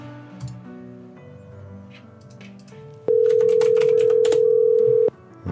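A telephone call rings out unanswered: after a quieter stretch, one steady ringback tone sounds loud and even for about two seconds, then stops.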